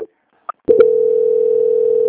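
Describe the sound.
A telephone line tone during a bank call transfer: a few brief clicks and blips, then a steady, continuous mid-pitched tone that holds unbroken to the end.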